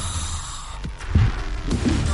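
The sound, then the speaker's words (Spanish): Darth Vader's characteristic mechanical respirator breathing from the last second of the Rogue One trailer, a hollow rasping breath over a steady low throbbing hum, with no talking. “en el último segundo del tráiler podemos ver a un Darth Vader de espaldas con su característica respiración, inundándonos de puro hype”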